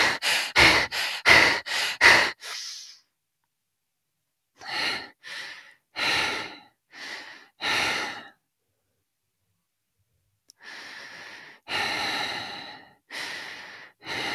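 Breathing exercise meant to clear the nasal passages and calm the breath: a quick run of short, sharp breaths, then slower, evenly spaced breaths separated by silence, with longer, more drawn-out breaths toward the end.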